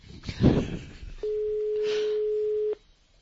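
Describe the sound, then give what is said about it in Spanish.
A steady telephone line tone sounds while a call to a political party's headquarters waits to connect: one flat, mid-pitched note held for about a second and a half, coming after a brief burst of muffled noise. “mantente a la espera. Vamos a esperar. Llamando a Ferraz del PSOE en este día tan tranquilo.”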